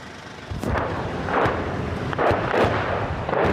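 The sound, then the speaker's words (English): A barrage of incoming artillery shells lands close by during intense shelling near a frontline village in Ukraine. Several heavy, booming impacts break out one after another over a constant low rumble. “A barrage of incoming shells land close by. There's been intense shelling here in the last few minutes.”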